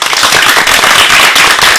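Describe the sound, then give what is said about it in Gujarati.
Loud, dense audience applause at a children's performance event. The rapid claps blur together into a continuous, crackling roar that stays strong throughout. “આ તાળીઓના ગડગડાટને વધારવા માટે તૈયાર છો ને?”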